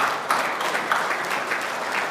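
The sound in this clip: Audience applause for a group of airline cabin crew at an event before a round 15 football match. Many hands clap in a steady, even patter that continues throughout.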